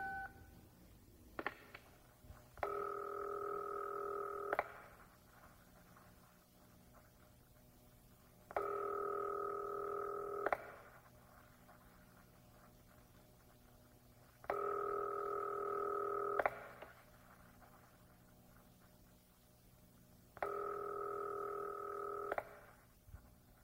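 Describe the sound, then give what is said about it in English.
Telephone line tones on a call to a New York Telephone dial-a-prayer line. A brief click is followed by four long, steady tone bursts at even intervals, with quiet line hiss between them. “You simply lift the receiver and dial I for I, RU12.”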